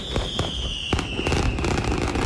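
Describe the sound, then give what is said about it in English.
Large fireworks display, billed as the state's biggest, launched from three sites along the Kanawha River near the Capitol in downtown Charleston: many sharp bursts and crackles over a continuous rumbling roar, loud throughout. “It was billed as the largest fireworks show in state history, and it did not disappoint.”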